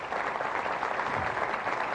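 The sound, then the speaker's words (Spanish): Crowd applause for the armed forces and the people who marched in a parade, a thick, even patter of many hands that holds steady throughout. “Vamos a darle un aplauso a toda la Fuerza Armada y al pueblo que desfiló, a todo y a todas.”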